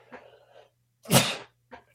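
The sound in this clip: A single loud, sharp sneeze bursts out as a short gust of breathy noise, lasting about a third of a second, with faint voice-like sounds just before and after it.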